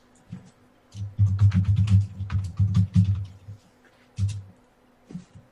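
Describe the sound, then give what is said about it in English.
Bursts of keystrokes on a computer keyboard as a name is typed, with many quick taps in uneven runs and short pauses between them, and no talking. “I'll type it in.”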